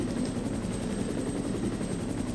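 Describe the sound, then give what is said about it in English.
Steady chopping thrum of a helicopter flying over in a video game, a low, even rotor pulse held at constant loudness throughout, with no talk. “just looking up at the helicopter flying over”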